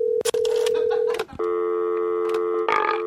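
Telephone dialing tones: a few sustained electronic beeps at a steady pitch, separated by short gaps, with no talk over them.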